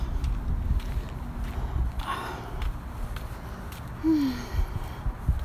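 Footsteps on a sidewalk under street lamps, soft and irregular, over a low, rumbling outdoor background with no talk.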